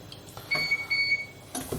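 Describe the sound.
An electric stove beeps as its heat setting is raised, giving a few short, high electronic tones in quick succession, faint against quiet background noise.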